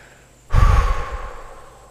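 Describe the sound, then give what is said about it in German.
A deep exhale through the mouth during a breathing exercise, a single loud, breathy rush that starts abruptly and trails off gradually over about a second; no talking. “Und dann lasst ihr die Luft einfach wieder durch euren Mund raus. Komplett ausatmen.”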